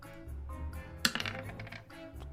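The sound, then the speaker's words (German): A six-sided die rolled for a tabletop game: one sharp impact followed by a few quick, light rattling clicks as it settles, then stillness over a low steady background. “ein W6 wird es entscheiden.”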